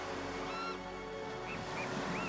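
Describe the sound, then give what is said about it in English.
Ocean waves at the shore make a faint, steady wash of surf, broken by a few brief high tonal chirps. “I wish you could just look out across the ocean right now. I mean, the sunset is magnificent. I can feel it. The warmth on my cheeks mixed with a cool breeze.”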